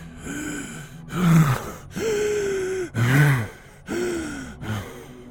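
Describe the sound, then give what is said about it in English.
Heavy, breathless gasping from a man winded after exertion: several loud, drawn-out voiced breaths with groaning edges, separated by brief pauses. “He breathed hard, feeling an uncomfortable burn in his lungs and an ache in his thighs.”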